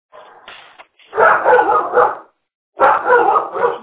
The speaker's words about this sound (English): I apologize for my dog.